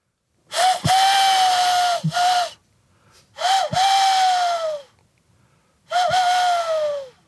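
A person imitates a tawny owl's call by blowing into folded, cupped hands, producing three long, hollow, whistle-like hoots. Each hoot holds a steady pitch and sags slightly at the end, with brief pauses between them.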